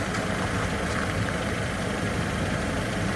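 A car engine idles outdoors in a courtyard, holding a steady, low rumbling drone at an even level throughout with no voices.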